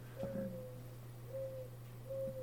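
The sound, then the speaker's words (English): Doves cooing in a yard: three soft, low, steady coos spaced apart, faint over a constant low hum. “I have doves in my yard right now.”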